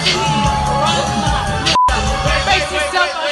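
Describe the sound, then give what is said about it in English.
An audience booing a woman as she sings a song. The crowd noise is loud and dense and continues without a break. “She's singing the song. Audience is booing.”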